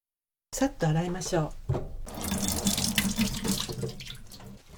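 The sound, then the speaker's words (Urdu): Tap water runs over shimeji mushrooms being washed at a sink, a steady splashing hiss that starts after a short stretch of talk and continues to the end. “شیمیجی کھمبیوں کے سرے کاٹ کر انہیں 3-3 کھمبیوں میں تقسیم کر لیجیے۔ اس کے بعد انہیں اچھی طرح دھو لیجیے۔”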